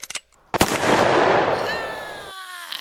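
A single gunshot rings out in a radio drama set aboard a ship. A few faint clicks come first, then a loud sharp blast that decays into a long rushing rumble, with a thin whistling tone trailing near the end.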